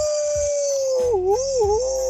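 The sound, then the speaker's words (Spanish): Wolf howl: a single sustained, clear mid-pitched tone that dips and wavers twice toward its end, over a faint low rumble. “El lobo. ¡Au!”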